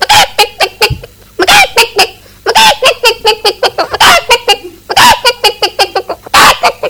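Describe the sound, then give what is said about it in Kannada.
A voice imitates a mother hen calling her chicks: many short, rhythmic clucking bursts in quick runs, broken by brief pauses, loud and steady throughout. “ಆ ಸಂದರ್ಭದಲ್ಲಿ ತಾಯಿ ಕೋಳಿ ತನ್ನ ಮಕ್ಕಳಿಗೆ ಯಾವ ತರ ಕೂಗುತ್ತದೆ ಎಂದು ತೋರಿಸುತ್ತೇನೆ.”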